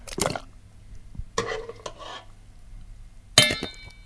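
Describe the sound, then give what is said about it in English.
Whole tomatoes drop into a glass jar in a few separate bursts of soft thuds and light clinks against the glass, with quiet gaps between. “We're going to add our tomatoes that are still whole to our jar.”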